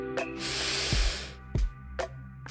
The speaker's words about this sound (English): let's get started with a deep breath. Ready? In